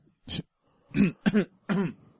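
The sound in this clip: Throat clearing, with several short rough bursts spread over about two seconds, separated by brief pauses, with one burst breaking into a quick double rasp. The sound stands alone with no talk.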